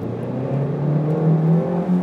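A car of about 330 horsepower accelerates in second gear with a loud, steady engine drone whose pitch climbs gradually throughout.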